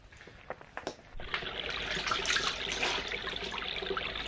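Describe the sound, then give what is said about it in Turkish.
Water runs and splashes as someone washes their hands and face, a few soft taps first, then a steady, fairly loud rush of running water that continues to the end with no talking. “Ha, dur önce şöyle bir elimi yüzümü yıkayayım da.”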